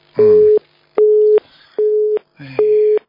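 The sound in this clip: Telephone busy signal after a dropped call: four evenly spaced, steady beeps of identical pitch, each about half a second long with short gaps between them, loud and clear throughout.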